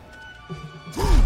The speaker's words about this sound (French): Et ça sert à quoi de casser le mur d'os Absolument rien.